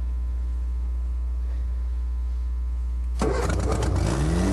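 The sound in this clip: A car engine starts after its fuel pipe has been replaced. A steady low hum runs for about three seconds, then the engine abruptly catches and roars loudly, its revs climbing as it runs rough.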